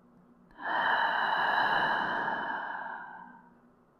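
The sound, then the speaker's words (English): A deep breath in and a slow exhale during guided yoga nidra relaxation practice: one long, soft rush of breath lasting about three seconds, steady at first and then fading out gradually, with no talk over it. “Take another deep breath in and exhale slowly.”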